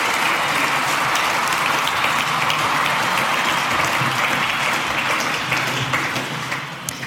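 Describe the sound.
Thunderous applause from an audience welcoming two guests: a loud, dense wall of clapping that holds steady for most of its length before thinning and fading near the end.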